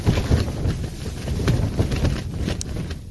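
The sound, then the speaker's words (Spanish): Wind at 7,050 metres on K2 in winter roars in a steady, buffeting rush that batters the microphone with dense low rumble and hiss throughout. “Así es como sopla el viento a 7.050 metros en el K2 invernal, escribía Chicón en su Twitter.”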